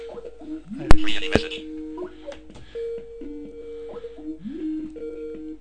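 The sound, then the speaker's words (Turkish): An outgoing internet phone call rings with a repeating pattern of short electronic tones. A couple of sharp clicks come early on, and soft cooing-like tones run beneath. “Şimdi arıyorum.”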